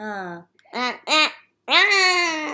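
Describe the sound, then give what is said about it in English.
A person imitates a puffin's call with four voiced, nasal bursts: a longer one, two short ones close together, then a longer drawn-out one. “What is that noise you're making? That's a puffin.”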